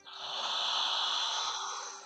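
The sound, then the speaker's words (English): A deep, slow exhale from a person during a guided relaxation breathing exercise: one steady, airy rush of breath lasting about two seconds, soft and alone with no talk. “So take a deep inhale. And exhale.”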